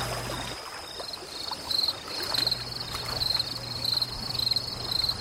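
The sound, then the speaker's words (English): A cricket chirping at night by a lake near a cottage, with many short, high, evenly repeated chirp bursts over a steady low background hum. “That was actually a cricket. That's a very, very common sound.”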